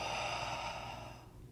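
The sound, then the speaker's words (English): A slow exhale through the mouth during guided meditation breathing: a soft, airy hiss holds steady, then fades out after about a second. “Exhale through your mouth.”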